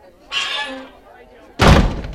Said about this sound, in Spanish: ¡Esa puerta!